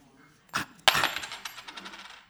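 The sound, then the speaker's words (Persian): A 20-kopeck coin tossed for heads or tails lands with two sharp metallic clinks, then rattles and spins with quick, fading rings until it settles. “کسی 20 کپک تو جیبش هست؟ آره. بیا بده. اینم سکه. خب شیر یا خط میکنیم؟”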